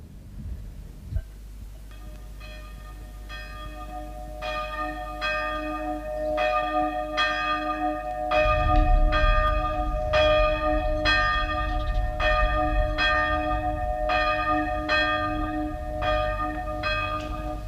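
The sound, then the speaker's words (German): Church bells ring during a village funeral, sounding many evenly spaced, resonant strikes with long overlapping hum. A deeper low rumble of heavier bells joins partway through, and the ringing continues steadily with no talking. “Dieser Glocken macht mich krank. Das Begräbnis dauert schon mehr als 2 Stunden.”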